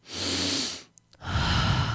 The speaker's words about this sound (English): He takes a deep breath